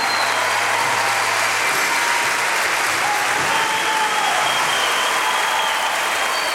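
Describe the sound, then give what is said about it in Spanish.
Audience applause for a bassist in a band, a loud, dense and continuous clatter of clapping that holds steady from start to finish without a pause. “Fuerte el aplauso en el bajo”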